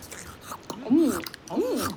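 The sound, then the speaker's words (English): Chewing and biting on cucumber: soft, moist crunching mouth sounds with a couple of brief pleased vocal murmurs, quiet overall. “Ooh, yummy. This cucumber is tasty.”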